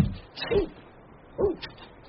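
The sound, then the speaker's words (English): A small dog gives two short, fairly faint yips or barks about a second apart. “Our dog, you know, wee Napatandy. He keeps straying and we have to retrieve him.”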